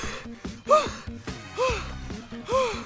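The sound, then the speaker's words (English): Someone breathes heavily, out of breath, in three loud, partly voiced gasps about a second apart. Softer breathy panting fills the gaps between them, in a steady, labored rhythm. “Why are you so out of breath?”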